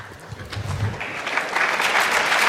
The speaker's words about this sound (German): Genau, Applaus für Anonymous.